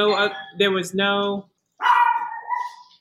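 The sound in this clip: A pet dog barks and yelps in a few short, tonal bursts, then lets out a longer whining bark that trails off, loud and clear with brief gaps between the sounds.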